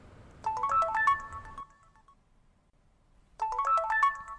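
A mobile phone ringtone plays twice as a bright, quick electronic melody of rising and falling notes. Each burst lasts about a second, with a silent gap between them.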